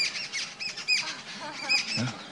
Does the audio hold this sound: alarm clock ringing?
no